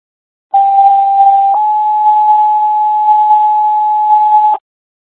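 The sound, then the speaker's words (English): County EMS dispatch paging tones come as a loud pure two-tone sequence. A steady tone lasts about one second, then shifts to a slightly higher tone held for about three seconds before cutting off abruptly into silence. “Carroll County EMS, stand by for tones”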